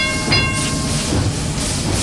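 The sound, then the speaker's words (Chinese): A train pulls into a small station with a steady, heavy rolling rumble and a hiss, and a brief high-pitched squeal near the start. “列车就要到站了，这个站很小，停车时间很短，旅客们急匆匆地下车去。”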